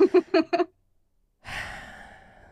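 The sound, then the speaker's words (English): A deep breath: a long, breathy exhale that swells quickly, then trails off slowly over about a second, following a short burst of voiced sounds and a brief silence. “Deep breaths, babe. Deep breath.”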